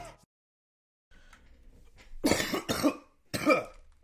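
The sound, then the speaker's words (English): Three harsh, loud coughs from a person whose lingering cough is improving, arriving in quick succession after a few faint, quiet sounds, each one a sharp burst that fades quickly. “Yeah, the cough is a lot worse. It's a lot better than it actually was. The cough is actually getting better.”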